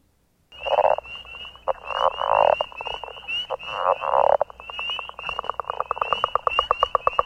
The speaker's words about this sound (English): Frog 7.